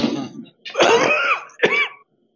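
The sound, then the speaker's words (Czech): A person gives a few rough, throaty coughs, a plain cough rather than a laugh. The short harsh bursts are separated by brief pauses, and no speech is heard. “To není sarkastické zasmání se, to je prostý kašel.”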